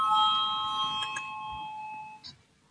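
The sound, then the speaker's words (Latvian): A bell rings to call a vote in parliament: a steady, multi-tone electronic chime that holds for about two seconds before cutting off, followed by a faint click. “Lūdzu zvanu”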